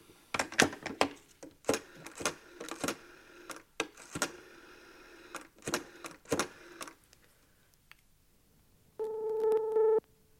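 Telephone call being placed: many sharp dialing clicks in an irregular run, then a pause and a steady, buzzing line tone of about a second at the end.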